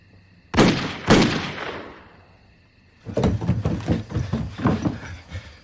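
Two sharp, loud gunshots crack out in quick succession, each decaying in a ringing tail. After a quieter pause, a busy run of knocking and clattering noises follows.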